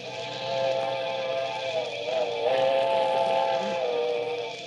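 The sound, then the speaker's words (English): A train whistle on a cold night as a train approaches: a sustained, steady harmonic chord with a slight waver, held at moderate loudness for the whole stretch. “that was it. The midnight train. I could see its bright headlight flickering as it approached.”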